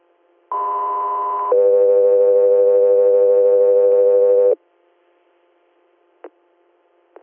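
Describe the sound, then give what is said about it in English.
Two-tone radio dispatch alert paging an air medical transport crew: a steady higher tone of about one second steps straight to a lower tone held for about three seconds, followed by silence and two faint short clicks. “stand by for tones.”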